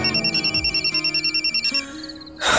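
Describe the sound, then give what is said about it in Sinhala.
A landline telephone rings after a number is dialed, a rapid electronic trill pulsing at a steady, even rhythm and ending in a sudden louder burst of noise. “අන්තිමට land phone එක හොරෙන්ම කාමරේට ගෙනාවා. විසල්ගේ number එක dial කළා.”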